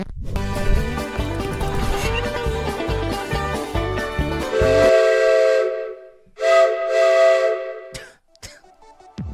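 A steam locomotive whistle sounds in long, loud, steady tones, first over a rhythmic low chugging pulse, then as a separate sustained blast after a short break, ending in a faint fading hiss.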